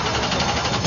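Race car engine at full throttle on a speedway track, a steady, loud droning roar that swells louder at the very end.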